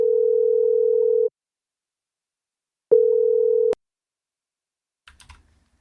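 Ringback tone of an outgoing telephone call: two steady mid-pitched tone bursts separated by silence, the second cut short by a sharp click, followed by a few soft clicks and low thumps.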